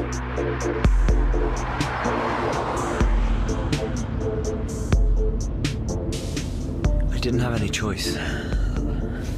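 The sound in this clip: A car drives for several miles, heard as a steady low engine drone with a constant hum and occasional low thumps throughout.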